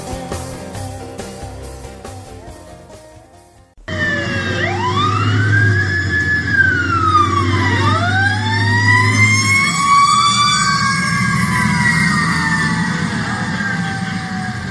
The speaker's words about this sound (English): That was the sound of emergency vehicles responding to the scene of a fire that started near the junction of Highway 94 and Hamishaw Boulevard Friday afternoon.